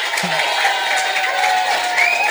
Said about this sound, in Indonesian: Tepuk tangan buat Bapak Kepala Sekolah dulu dong.